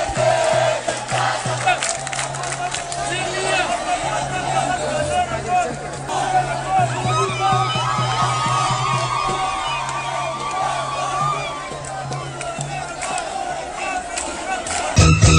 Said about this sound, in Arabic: وكان هتاف المحتجين أمام مجلس الوزراء